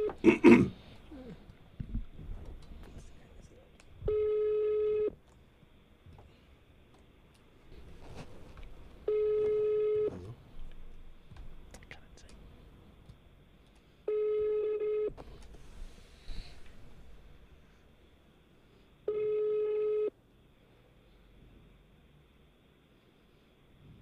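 Ringback tones sound on an unanswered prank call: four evenly spaced ringing tones, each about a second long and roughly five seconds apart. Soft, faint background noises fill the gaps between them.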